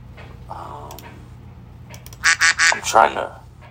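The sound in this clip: Duck quacks from a sound effect ring out as a rapid run of several loud, nasal honks packed close together near the end, after a stretch of quieter talk.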